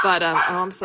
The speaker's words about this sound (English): Oh, is that the doggo?